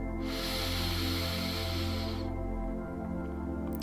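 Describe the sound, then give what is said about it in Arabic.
Breathing during a breathing exercise: one long, airy breath hisses for about two seconds and then stops, over a steady tonal backing that continues throughout. “شهيق زفير شهيق”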